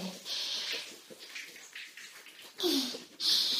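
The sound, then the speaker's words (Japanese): A shower running hot water, heard as soft bursts of hissing spray that start and stop, with short quiet gaps between them. “それじゃあシャワーでお湯を出しながら、 よいしょよいしょ、 ボディーソープを泡立てて、”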